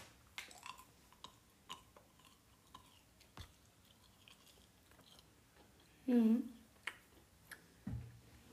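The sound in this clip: Quiet chewing while eating: faint, irregular soft clicks and smacks, with one brief louder throaty sound near the end.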